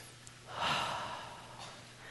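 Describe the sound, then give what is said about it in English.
A deep breath drawn in by people, heard as a soft, breathy hiss that swells over about a second and then slowly fades, with no talk. “just real quick, take a deep breath, would you?”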